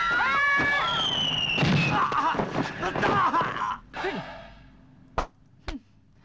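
A hand grenade explodes in a film scene. Shouting and a sigh come first, then two sharp, short bangs close together near the end.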